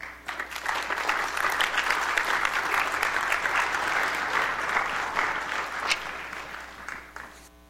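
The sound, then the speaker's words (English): An audience at a church gathering on Asian American ministry applauds to welcome two speakers. The clapping is full and continuous, tapering off near the end. “Would you welcome Shana Coles and David Cheng, please?”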